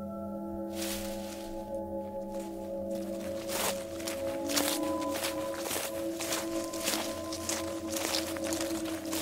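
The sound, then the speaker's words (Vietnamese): Shuffling footsteps on dry leaves, with many scuffing, rustling steps in an uneven rhythm over a steady low humming drone. “nghe sau lưng có tiếng bước chân người. Tiếng bước chân loẹt quà loẹt quẹt dẫm lên trên lá cây, nghe rõ lắm.”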